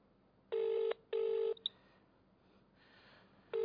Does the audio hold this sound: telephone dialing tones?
yes